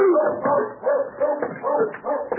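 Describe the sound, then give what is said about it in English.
A watchdog barking, a string of several drawn-out, whining yelps and barks in an uneven rhythm, fairly loud and alone with no talk. “A one-man dog. Most of the time, he's just barking at cats and other dogs.”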